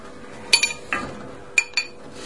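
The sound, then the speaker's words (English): A big spoon stirring a pot of melting food, giving a few sharp metallic clinks against the pot's side, spaced irregularly over quiet background noise. “Should we give it a little stir? Yeah, can I stir it? Yeah, let's find a big spoon.”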